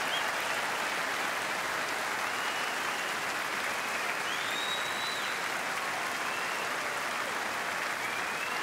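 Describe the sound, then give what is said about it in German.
Steady, continuous applause from an audience saluting a group of men, a fairly soft, even wash of clapping with a few high whistles rising above it. “Bitte noch einen riesigen Applaus, meine Herren.”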